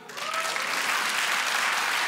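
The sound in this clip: Audience applause breaks out when the crowd is asked to clap, quickly swelling into dense, sustained clapping that holds at an even, loud level to the end.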